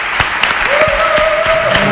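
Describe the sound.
Loud, dense audience applause at a gathering, a continuous clatter of many clapping hands with a few sharper claps standing out and a sustained whistled tone running through the latter part.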